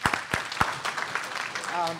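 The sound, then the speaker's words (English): Audience applause at a gathering after a storytelling session: a few scattered, sharp claps, then a voice near the end. “Let's give her a round of applause.”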